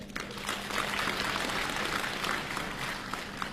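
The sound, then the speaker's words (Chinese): Audience applause greets Chinese crosstalk performers at a New Year comedy show, a fairly faint, steady wash of clapping that holds at an even level throughout. “谢谢您热情的掌声”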